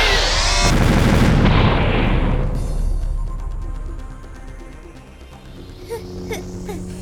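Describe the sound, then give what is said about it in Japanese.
A doll used as a bomb explodes in a video game, a loud, booming blast at the start that rumbles and dies away over several seconds, followed by faint clicks and pops. “まさか人形爆弾代わりにするとは思わなかったわ。”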